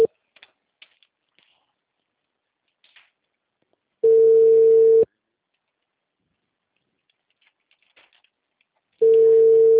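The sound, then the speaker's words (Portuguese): Ringback tone of an outgoing phone call: two steady, mid-pitched beeps, each about a second long and spaced roughly four seconds apart, with faint scattered clicks in the quiet gaps. “Tô ligando.”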